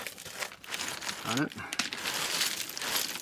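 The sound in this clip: Crinkling, scraping rustle as a Levi's jeans pocket buried at the bottom is pulled out from underneath. The rustling runs throughout, with a brief voice heard over it.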